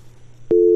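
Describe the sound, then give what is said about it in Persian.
A steady, single-pitched telephone tone sounds after a caller's line disconnects during a call-in. It cuts in abruptly about halfway through over a faint low hum and holds loud and unbroken to the end. “فکر کنم تماسشان با ما قطع شد.”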